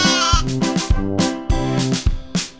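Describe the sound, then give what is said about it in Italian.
Sheep bleat in a rapid series of quavering, nasal cries, each call starting sharply and tapering off, loud and close together with no talk. “la pecora. Pecorella.”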